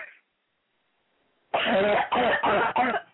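A woman coughs and chokes in four harsh, rapid bursts after a brief pause, each cough loud and raspy.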